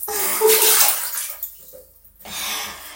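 Water poured out all at once to flush something away: a loud rushing gush for over a second, a short quiet break with small splashes, then the flow starts again more softly.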